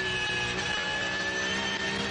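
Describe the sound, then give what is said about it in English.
The Black Falcon number 632 GT3 Cup race car, running on alternative fuel at around 400 horsepower, gives off a steady engine drone. The whine is faint and held at an even pitch, with no clear pass-by swell. “Jimmy Broadbent behind the wheel of the Black Falcon 632, running in 82, alternative fuel, round about”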